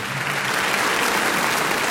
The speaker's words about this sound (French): Une vague d'applaudissements submerge l'enfant tandis qu'un projecteur l'inonde de lumière.